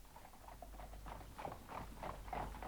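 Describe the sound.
The hooves of a horse pulling a cab clip-clop in a steady, even rhythm, many soft hollow beats running throughout, faint over a low, rumbling background.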